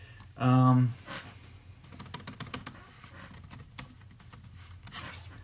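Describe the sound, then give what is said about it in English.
Fingers tap on a computer keyboard in quick, uneven runs of light clicks, entering a search word. A brief voice comes just before the typing starts. “I'm gonna type in think.”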